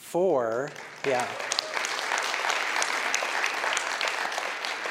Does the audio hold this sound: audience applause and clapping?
yes